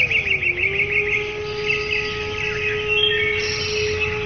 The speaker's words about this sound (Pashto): کله چې وروستی سر هم غوڅ شو، زرین مارغه سندره پیل کړه.